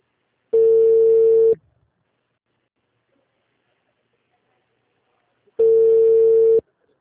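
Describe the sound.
Telephone line tones while a call is being placed: two steady, mid-pitched buzzing tones, each lasting about one second, separated by roughly four seconds of silence.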